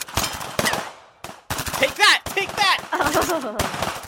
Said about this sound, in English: Okay, clearly they're both terrible at shooting guns because they're not hitting anything.